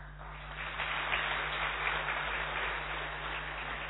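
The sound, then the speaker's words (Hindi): An audience claps to welcome a woman speaker being greeted with a bouquet at a gathering. The applause is an even, continuous patter of many hands that holds steady for several seconds at a moderate level. “तो करतल ध्वनि से हम अपनी दीदी जी का बहुत बहुत स्वागत करेंगे”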